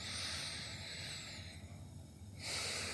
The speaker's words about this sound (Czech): doporučím zhluboka se nadechnout nosem